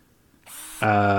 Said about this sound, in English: can you hand me that drill real quick, and I'll take this off the wall, or at least loosen these screws